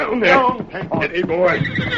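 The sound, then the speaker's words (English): A restless paint horse whinnies in a shaky, quavering neigh lasting about two seconds, mixed with voices talking over it. “Steady, paint horse. What's the matter with that horse? Down, paint horse.”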